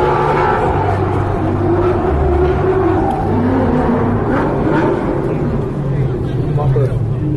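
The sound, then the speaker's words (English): A Ford Mustang drift car, the North Energy Carbon Tire Mustang, drones steadily throughout at an even loudness, with voices heard over the engine noise. “That's Vaughn Gittins Jr. in the North Energy Carbon Tire Ford Mustang.”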